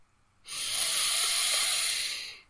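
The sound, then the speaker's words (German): A long, slow breath drawn in through the nose during a guided breathing exercise: a steady, airy hiss lasting about two seconds, rising in quickly and fading at the end, heard alone without talk. “Nochmal einatmen durch die Nase.”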